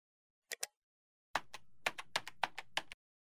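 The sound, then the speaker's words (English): Keys clatter on a computer keyboard as a search is typed. Two quick taps come first, then a short pause, then a brisk, fairly even run of about ten crisp keystrokes. “First, type in the name of the artist or the title of the song in this search box and hit search.”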